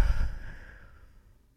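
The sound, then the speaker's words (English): A deep breath is let out in a single breathy sigh that starts loud and fades steadily away to quiet, with no voice. “So let's take a deep breath. Deep breath in and out.”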